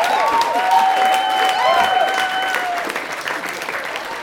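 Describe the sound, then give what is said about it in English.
Audience applause at a live storytelling performance: a dense, steady clatter of many hands with a few cheers rising over it, easing slightly toward the end. “The fact that you're applauding that part bodes well for the rest of the story.”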